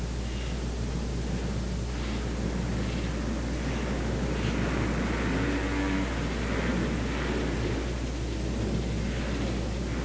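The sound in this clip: A race car engine runs at the track, puffing blue smoke and sounding unhealthy after earlier throttle cable problems. It gives a loud, rough, continuous drone blended with hissy noise, holding a fairly even level throughout.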